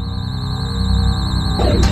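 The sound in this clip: A warbling electronic alarm sounds as a spacecraft mission effect, the 1201 program alarm, a steady high wavering tone over a low droning bed of music, ending in a short noisy burst.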